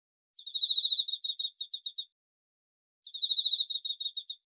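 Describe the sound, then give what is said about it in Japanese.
Bell crickets chirp in two bursts of rapid, high-pitched ringing pulses separated by a short silence, with no talk. “スズムシの鳴き声も吹いてくる風も心地よくって言うことなしだよ。”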